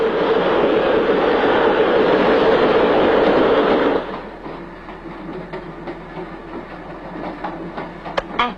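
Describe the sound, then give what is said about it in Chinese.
A train running on rails, first a loud, steady rumble that suddenly drops to a quieter rolling sound with intermittent clicks and clacks from the wheels. “你说这火车要去澳洲的话，该多好啊！”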